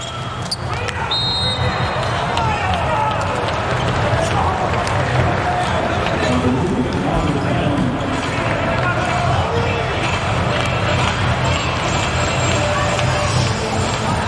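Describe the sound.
Volleyball serve and rally in an arena: dull ball impacts sound through a constant roar of crowd noise, while a commentator talks over the play.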